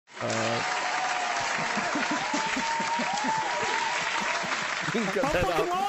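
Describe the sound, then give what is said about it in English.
A crowd of people claps in dense, continuous applause that holds steady throughout, with voices talking over it. “There's people clapping. Yeah, you can talk over them.”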